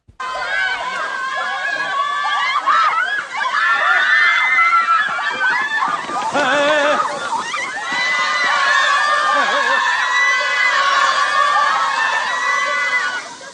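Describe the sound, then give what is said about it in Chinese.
A crowd of fans outside a film set screams and cheers in a dense, high-pitched wall of shrieks and shouts that stays loud almost the whole time. “片场外边，丁索拉的粉丝围得乌泱乌泱的。”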